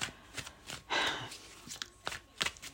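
Oracle cards being shuffled by hand: a series of brief papery riffles and soft slaps, irregular in rhythm and fairly quiet, with short pauses between the bursts.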